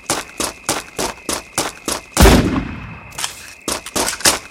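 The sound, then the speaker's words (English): Sniper rifle fire in a video game, a steady series of sharp, rhythmic clacks broken by one heavy booming shot with a long decaying tail before the clacking resumes. “Sniper rifle.”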